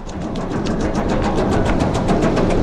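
Steady, loud rumble of the Phoenix roller coaster ride, heard from the rear seats before the drop, with a fast, regular clatter from the track running through it the whole time.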